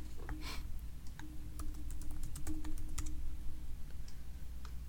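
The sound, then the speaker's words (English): Typing on a computer keyboard: many quick, irregular key clicks tapping at a steady pace over a low constant hum, with no talk. “Hold on. I'm just going to Google that right now.”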